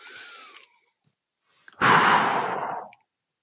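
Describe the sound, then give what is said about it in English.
A single deep breath, one long, loud, airy rush of air lasting about a second, following a brief soft voice and a pause. “and then take a deep breath.”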